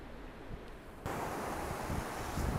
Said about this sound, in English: Okay, I have walked across the sand to the sea. So this is my end destination, and I'm wondering if you can hear, well, perhaps kids playing, but also the sea in the background.